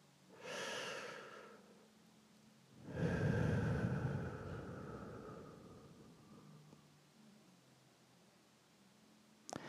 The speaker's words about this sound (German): Bewusst atme ich ein und wieder aus.